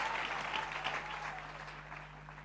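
An audience applauds, a dense continuous patter of many hands clapping that stays steady and eases slightly toward the end.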